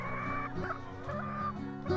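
Hens clucking on a small farm that keeps around two hundred laying hens, a steady, quiet overlapping chatter of clucks and calls with no pauses.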